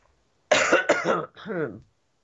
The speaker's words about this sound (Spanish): ya empezó la tos.